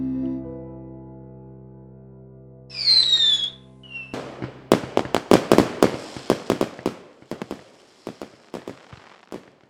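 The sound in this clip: Fireworks explode in a loud string of many sharp bangs and crackles that come fast at first and then thin out, with soft tones before the first burst.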